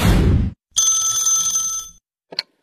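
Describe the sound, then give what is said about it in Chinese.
A telephone rings with an incoming call while people watch television at home. A low rumble comes first, then one bright ring lasting about a second, followed by a short second chirp. “小何的表弟打来了电话”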